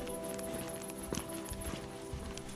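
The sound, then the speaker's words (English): Footsteps of a person hiking outdoors in the evening, a few soft, irregular steps over a steady tonal background drone, with no talk. “I walk in the evening sun for a few hours.”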